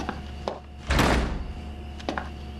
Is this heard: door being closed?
yes